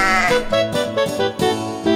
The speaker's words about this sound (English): meet Baba Black Sheep.